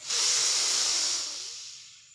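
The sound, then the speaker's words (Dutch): A deep inhale through both nostrils during a guided relaxation, a single loud, hissing rush of air lasting about two seconds that is strongest at the start and gradually thins out, with no talking. “En nu mag je het weer loslaten door beide neusgaten even heel diep inademen.”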